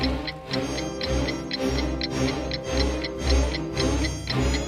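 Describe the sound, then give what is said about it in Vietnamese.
A clock in a castle sounds with steady, evenly spaced ticks repeating many times over sustained ringing tones, loud and even throughout. “Chiếc đồng hồ đổ chuông lần nữa”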